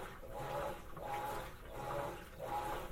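A Kenmore washing machine agitates, its water sloshing in soft, rhythmic back-and-forth swishes, four strokes in under three seconds, with no voices.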